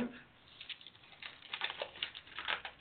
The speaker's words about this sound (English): Turning pages.